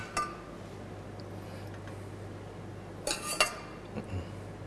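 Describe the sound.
A spoon clinks and scrapes against a pot while pork is stirred together with its own juices, a few scattered metallic taps, faint over a steady low hum.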